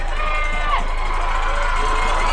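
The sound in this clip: Football stadium crowd cheering and roaring in a steady, loud wash of voices with scattered shouts, holding an even level throughout.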